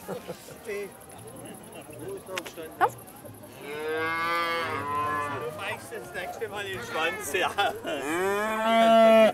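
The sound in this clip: A calf being led by hand moos several times in long, drawn-out, wavering calls, loud and harmonic, after people talk at the start.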